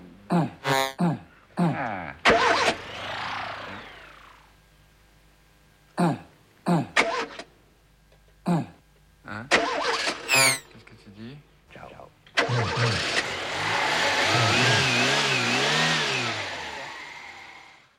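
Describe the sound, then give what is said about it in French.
An electroacoustic sweep effect sounds through chopped, processed vocal-like fragments with coughs and throat noises. It ends in a long, dense, hissing wash with shifting bands that sweep up and down. “C'est ça le sweep, c'est ça l'effet du sweep.”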